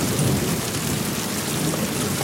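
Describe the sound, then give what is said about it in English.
Steady heavy rain falls outside a warehouse, a dense, even hiss with a low rumbling undertone, continuous and loud, with no voices. “He steps from the warehouse into the rain.”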